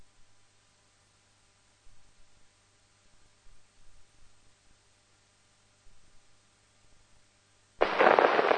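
A gunfire salvo on the command to fire: near-silence broken by faint ticks, then one sudden loud blast near the end that stays loud to the close.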